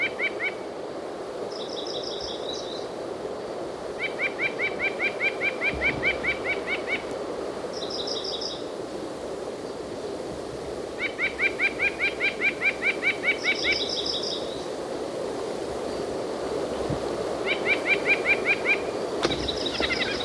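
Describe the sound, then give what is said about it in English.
A white-breasted nuthatch calls in several bouts of rapid, repeated nasal notes, alternating with short, higher-pitched call bursts. The calls are fairly faint over a steady low background hum, with no voices. “this white-breasted nuthatch. Oh, I hear him again.”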